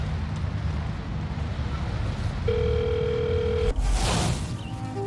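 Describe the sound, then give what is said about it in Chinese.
A telephone dial tone sounds as someone places a call. It is one steady mid-pitched tone lasting about a second over a constant windy hiss, followed by a short rushing burst of noise. “不跟你说了，我给他们打个电话”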